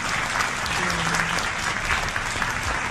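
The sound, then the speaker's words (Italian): Applause from an audience fills the whole stretch as a dense, steady wash of clapping at constant loudness, with a faint low tone sounding briefly partway through. “L'applauso, tutto per te.”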